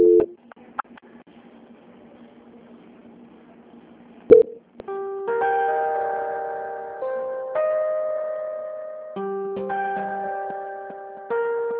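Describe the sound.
A telephone call is being transferred. Brief electronic tones sound first, then a sustained synthetic melody of steady, layered notes changing in pitch every few seconds. No voices are heard.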